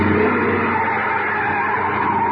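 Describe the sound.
Tires squeal as a car swings left around a corner, a steady, sustained screech of rubber with the car's engine underneath and no talking.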